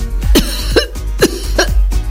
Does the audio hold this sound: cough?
yes